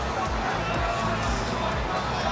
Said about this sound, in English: And this is the sound of hundreds of people in Brisbane at South Bank